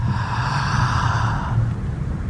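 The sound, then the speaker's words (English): A deep breath in: one long, airy inhale lasting about a second and a half, steady and fairly loud, over a constant low background. “So I want you to breathe in.”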